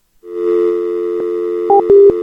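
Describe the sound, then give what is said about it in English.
A telephone dial tone played over a call as a prank: a loud, steady hum that holds throughout, broken near the end by a few sharp clicks and a brief shift in tone. “I got to do the dial tone trick, but she didn't fall for it.”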